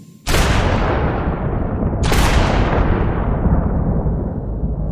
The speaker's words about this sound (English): I fired two shots from a .357 revolver.